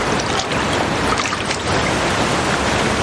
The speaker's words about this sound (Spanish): Rinri sale para secarse y Amelie se queda sola en la piscina flotando con los brazos abiertos